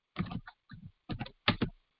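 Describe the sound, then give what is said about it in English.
Typing a search on a computer keyboard: faint key clicks come in four short quick bursts separated by brief pauses. “And you just type in Emmitt Smith, and the first thing come up is Emmitt Smith divorce.”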